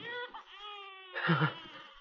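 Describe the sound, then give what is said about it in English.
A newborn baby's plaintive, muffled wail: one long, wavering tonal cry that swells into a louder, rougher burst before fading, heard alone. “Suddenly, Walt stopped as he heard a plaintive, muffled wail.”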